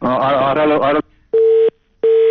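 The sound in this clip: A telephone tone after a listener's call disconnects: a stretch of voice, then two loud, steady, identical beeps with a short silence between them.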